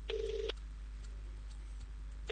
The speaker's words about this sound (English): Let me give them a call right now.